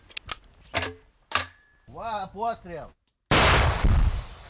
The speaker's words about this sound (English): They fire an anti-tank rocket-propelled grenade unconventionally at Russian troops a mile and a half away.